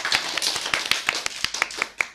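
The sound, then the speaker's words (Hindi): Applause from the audience at a children's program after a child's talk: a run of many sharp, fairly evenly spaced claps, with no talking over them. “तालियां हो जाएं।”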